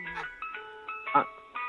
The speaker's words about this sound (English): Are you outside by an ice cream truck?